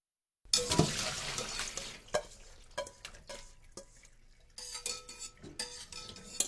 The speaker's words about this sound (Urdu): فوراً ہی اسے ہلائیے اور پالک کو پانی کی تہہ میں ڈوب جانے دیجئے۔